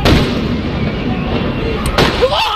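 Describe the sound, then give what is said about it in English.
LAPD officers on horseback fire rubber bullets at protesters in central Los Angeles. A few sharp, gunshot-like bangs cut through a dense, continuous crowd din. “The LAPD moving in on horseback, firing rubber bullets at protesters, moving them on through the heart of LA.”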